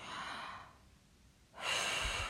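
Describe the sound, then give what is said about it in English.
A deep breath in and out, soft and airy: a breathy rush, a quiet pause, then a stronger, louder breath. “Take a nice deep breath in and breathe out.”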